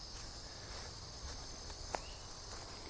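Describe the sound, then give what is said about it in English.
Insects chirp at night in a stand of trees, forming a continuous, even, high-pitched buzzing drone with no talking. “Bugs don't seem to mind being recorded.”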